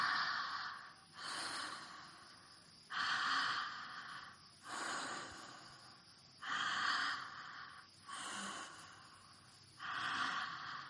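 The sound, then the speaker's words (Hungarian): Breathing through the mouth in a continuous cycle, strong inhales alternating with relaxed exhales and no pause between them: about seven soft, airy breath sounds over eleven seconds. “Erősebb belégzés, lazább kilégzés, szájon át. Nincs szünet belégzés és kilégzés között.”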